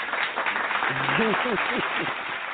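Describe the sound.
An applause sound effect plays on a talk radio show. A brief burst of clapping runs under a voice that talks over it.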